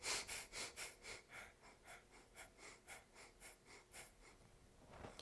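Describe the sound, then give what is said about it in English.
Rapid breath-of-fire yoga breathing, done in a seated stretch holding the toes: a steady train of quick, forceful, airy breaths at roughly three per second, soft and evenly paced, with no voices. “inhale deep, pull your spine nice and straight and begin the breath of fire.”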